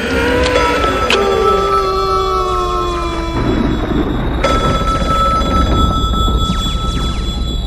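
A telephone bell rings during a call, a loud, continuous electronic trill with layered tones that runs through the whole stretch with no talk.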